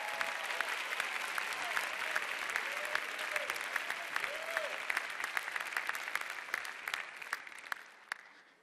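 An audience at Cedarville applauds warmly as a family comes to the stage. Dense, continuous clapping with a few cheers holds steady, then thins out and fades over the last couple of seconds.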